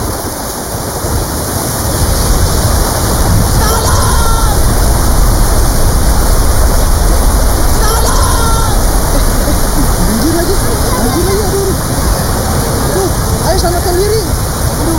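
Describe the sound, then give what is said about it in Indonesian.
Heavy rain and rushing floodwater roar loudly and continuously as flooding rises into a house, a dense unbroken wash of noise with voices talking over it. “Aduh guys, hujan lagi gimana dong? Iya hujan ya.”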